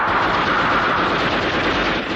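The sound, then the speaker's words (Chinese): Rapid machine-gun fire as a sound effect in a wartime battle drama: a dense, continuous, loud crackling burst that holds steady throughout with no pauses. “打！ 李正起身制止，不料自己胸口中了子弹。”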